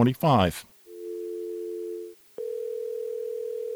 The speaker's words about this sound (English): So hear that phone line going bad when it comes to cell phones.